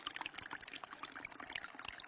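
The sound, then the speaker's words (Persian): Cold, clear fresh water bubbles up from freshly dug ground, a continuous faint gurgling trickle that runs without pause. “زمین کند و کند و کند، اقدر کند تا به جایی رسید که دید آب سرد و صاف و شیرینی بلق بلق در حال جوشیدن از زمین است.”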